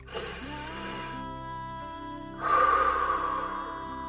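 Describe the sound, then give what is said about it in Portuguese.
Slow breathing during a paced breathing exercise, inhaling for four counts and exhaling for six: two long, airy breath sounds separated by a short pause, soft and steady, with no speech. “Sim, inspira em quatro tempos e solta o ar em seis tempos.”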